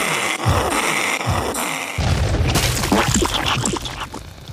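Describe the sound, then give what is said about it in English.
A moon rat creature bursts apart after being shot in a video game: a sudden loud blast about midway, then dense crackling, splattering noise over continuous game sound. “Why do they explode like that? It makes no sense, and why do they, like, split all over everything?”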